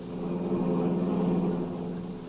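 A car being driven, staged as a radio drama sound effect: a steady, even engine drone with a low rumble, holding at a constant level throughout.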